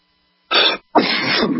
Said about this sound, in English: Sorry, I don't have a cough button.